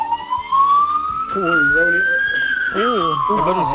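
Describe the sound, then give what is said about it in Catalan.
An ambulance siren passes outside the window along the Ronda Litoral ring road. It wails loudly and steadily, its pitch rising gently, then falling after the midpoint, while people talk beneath it. “Sembla que passi per l'estudi, l'ambulància.”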